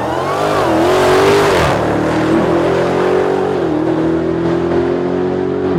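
Dodge Demon car launching hard from a dead stop, its loud continuous engine roar climbing in pitch, dipping briefly partway, then rising again through a sustained, heavy acceleration.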